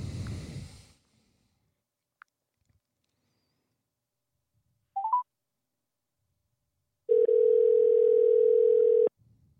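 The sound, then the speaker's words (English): A telephone dial tone heard while calling someone: a couple of brief dialing beeps, then a loud, steady, single-pitched tone held for about two seconds before cutting off abruptly. “give me 1 second. I'm going to call my man in here and get him dialed in.”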